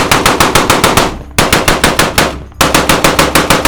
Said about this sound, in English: He raised the barrel of the gun. Cover your ears, he hollered, before unleashing hell's fire.